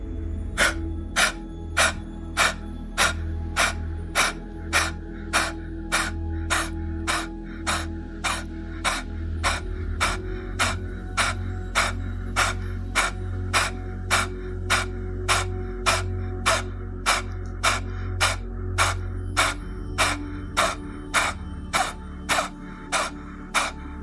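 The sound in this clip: Rapid, forceful kapalabhati yoga breathing through the nose: many sharp, evenly spaced exhalation bursts, a little under two per second, over a steady low drone.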